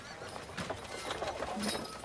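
Horses arrive at a castle with a drawbridge, their hooves clopping in many quick, irregular beats within a dense, faint, noisy bed of sound.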